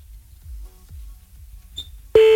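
A telephone ring tone plays while the call waits to be picked up: a single loud, steady electronic tone starts near the end and holds, after a stretch of faint low rumble and a few soft blips.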